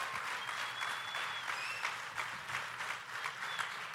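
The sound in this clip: A church audience applauding to welcome a guest speaker: faint, steady clapping that holds evenly for the whole stretch without building or dying away.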